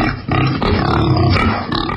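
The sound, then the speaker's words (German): Wild boar grunting in several loud, deep, rough bursts, harsh and growling, layered over a dense low rumble. “Dort, wo das Wildschwein grunzt.”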